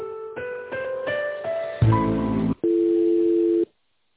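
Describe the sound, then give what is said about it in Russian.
Telephone line tones play during a call transfer: a run of about five short stepped electronic tones, then a harsher buzzing burst, then one steady tone lasting about a second before the line goes silent. “Перевожу на финансовый отдел.”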